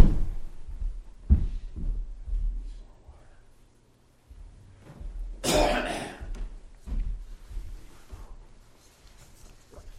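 Coughing and throat clearing from someone with something stuck in the throat: several rough, scattered bursts broken by short quiet gaps, with one loud, harsh cough in the middle.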